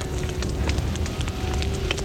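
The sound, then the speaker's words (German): A fire burns and crackles as flames spread from a lamp knocked to the ground, a steady rushing hiss dotted with many sharp pops and snaps, loud and continuous. “Die Funken. Jetzt brennt schon da drüben.”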